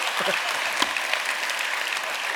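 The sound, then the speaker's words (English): Church audience applauding for their pastor: dense, continuous clapping that holds at a steady, fairly loud level, with individual claps blurring into an even roar. “And that would be a great time to applaud if you wanted to.”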